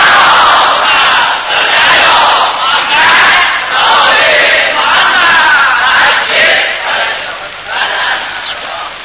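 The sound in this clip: A large crowd chants salawat together in response, a loud, dense mass of voices that swells and eases in waves without a break.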